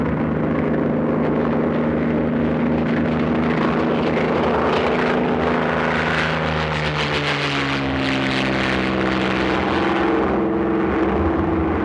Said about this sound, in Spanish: Cuando llegan, la avioneta está despegando.